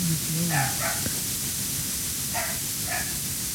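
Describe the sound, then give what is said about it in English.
A dog barks in a few short, high yips, grouped in two quick pairs with a pause between, over a steady hiss of static and no talking. “That's Lola barking.”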